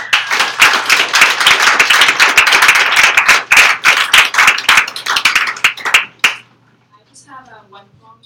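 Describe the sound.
Audience applause welcomes a first-time poet to the open mic, a dense, steady patter of many hands for about six seconds that stops abruptly, after which a faint voice begins.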